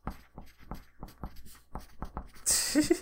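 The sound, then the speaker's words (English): Hand writing with a pen on paper: many short, faint scratching strokes in an uneven rhythm, followed by a louder rustle of paper at the end. “Don't ask why I'm writing this down.”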